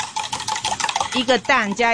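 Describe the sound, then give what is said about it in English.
Kitchen clatter and scraping while danbing, a Taiwanese egg pancake, is cooked in a restaurant: a run of quick, busy scrapes and clinks, then a voice speaking over the cooking toward the end. “A lot of customers order danbing. Why don't I make you one?”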